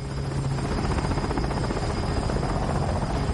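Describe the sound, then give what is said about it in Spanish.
A helicopter flying at night while lifting cabins slung on cables gives a loud, steady rotor thrum with a constant engine whine, unbroken throughout. “De noche, el helicóptero levanta los barracones con las urnas.”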